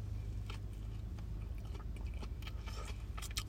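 Someone chews a 7-Eleven vegetable mix sandwich with tomato. There are several soft, moist, crunchy bites, faint over a low background hum.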